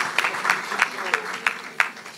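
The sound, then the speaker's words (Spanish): An audience at a Spanish-language church service applauds, with pronounced regular claps standing out from the wash of clapping, fairly soft, with voices mixed in. “así que por favor un aplauso para él y le mandamos un abrazo.”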